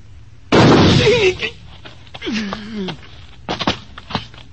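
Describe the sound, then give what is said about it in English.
A single loud gunshot in a western film, a sharp burst with a ringing tail, followed by people talking. “It is impossible that someone could shoot faster than Signor Drew. And with your left hand. Oh, Chico, you are so very quick with your gun.”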